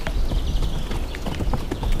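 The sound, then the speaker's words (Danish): Free-roaming, unsaddled horses approach, their hooves clip-clopping in many quick, irregular steps over a steady background rustle. “når vi er her, og de her heste, de kommer hen, og sådan er tydeligvis observante over for os”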